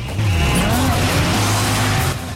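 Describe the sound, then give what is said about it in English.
Two cars, one a brand new red Dodge Viper, rev their engines and race off side by side along a street. A loud, sustained engine roar with shifting pitch starts abruptly and carries on, alongside tire noise. “Where it lands, Claire and Sean gun their engines.”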